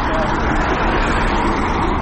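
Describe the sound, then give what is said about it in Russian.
A bus arrives at a street protest that police are ordering to disperse: its engine makes a steady, loud low rumble mixed with traffic noise, with a faint murmur of voices underneath. “Как вы видите, приехал автобус.”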